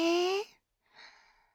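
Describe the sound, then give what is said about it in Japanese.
A deep breath in comes as a soft, airy rush lasting about half a second, after a brief voiced sound and a short pause. “まずは深呼吸でちゅ。吸って、”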